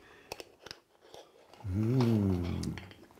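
Someone chews a bite of za'atar spice mix with roasted sesame, herbs and sumac, giving a few faint crisp crunching clicks, then a long low hummed mm of appreciation.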